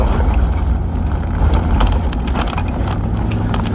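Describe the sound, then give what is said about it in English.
Steady low road rumble and engine drone from a car being driven, with wind buffeting mixed in, continuous and fairly loud throughout with no speech. “So I'm just driving.”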